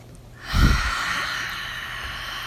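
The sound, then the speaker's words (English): A deep breath taken during a guided meditation prayer, with an abrupt breathy onset about half a second in, followed by a long, steady airy rush, fairly faint and without talk. “So I'd like for us to move into those deep breaths again.”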